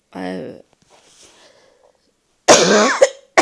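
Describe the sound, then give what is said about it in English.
A person coughs a few times in harsh, loud bursts near the end, after a short voiced sound at the start and a quiet pause. “I'm sorry, I'm coughing.”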